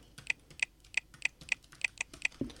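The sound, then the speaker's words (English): Password typed on a computer keyboard: many crisp, evenly paced keystrokes with sharp clicks, fairly quiet and heard alone. “Now, so this secure text field is the password that I use to unlock my computer. So I'm going to type that in now.”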